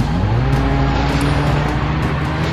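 A car engine roars at full throttle during a chase, a loud, steady, unbroken drone with a strong low hum and no pauses.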